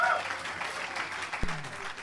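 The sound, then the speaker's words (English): An audience applauds after a rumba performance by a Latin folk music group, with dense, steady clapping that runs through the whole clip. One brief thump stands out partway through. “let's have a nice round of applause. Folklore Latino doing the rumba for you.”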